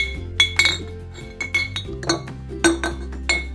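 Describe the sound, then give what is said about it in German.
Glass bottles clink together as clean empty bottles are readied for homemade liqueur, giving several sharp, bright clinks with ringing tones in an irregular rhythm. “dann füllen Sie ihn am besten in ein paar saubere Glasflaschen.”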